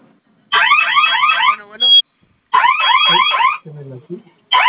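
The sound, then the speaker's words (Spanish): A security alarm that stays on after a code is entered sounds in loud electronic warbling bursts, two full cycles and the start of a third, with lower buzzing tones between them. “no se apagó la alarma. La alarma sigue sonando”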